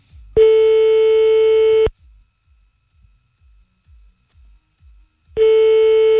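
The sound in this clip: A telephone line tone sounds as a call is placed: a steady, mid-pitched electronic tone lasts about a second and a half, then a long gap with faint low thumps, then the same tone returns at the end.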